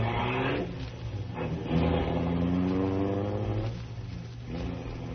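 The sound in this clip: A car being driven by a learner driver, its engine a continuous mid-pitched droning rumble with gentle swells and dips in level, muffled and dull in tone.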